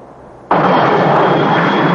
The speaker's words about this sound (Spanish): Poco después, vuelve en su avión a Roma.